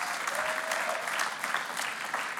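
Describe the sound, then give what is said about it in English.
A church audience applauds in a dense, steady roar of many hands clapping, holding an even level from start to finish. “why don't you give the Lord a huge round of applause? Come on, East Campus.”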